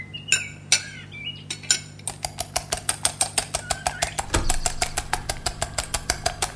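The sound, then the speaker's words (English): Pancake batter mixed in a bowl: a few scattered clinks, then a rapid, regular run of bright clicking strokes, about four per second, over a low steady hum. “help me mix the pancake batter.”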